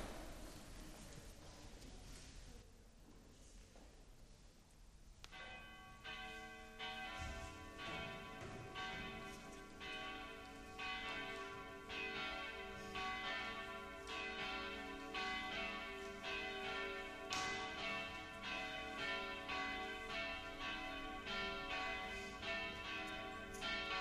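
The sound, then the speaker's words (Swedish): Church bells ring out before an evening mass, their many overlapping strikes building into a steady, resonant peal that starts a few seconds in after a quieter opening and carries on to the end. “Men då låter vi klockorna ringa och så ska vi börja vår mässa ikväll.”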